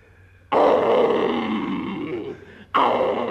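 A lion roars in two loud, rough bursts. The first is long and sustained before easing off, and the second starts abruptly near the end.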